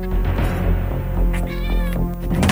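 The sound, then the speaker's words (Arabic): Cats meow and caterwaul, said to come from a sister's mouth. The cries are loud, drawn-out and wailing, and overlap one another. “بدأ صوت قطط يطلع من بق أختي،”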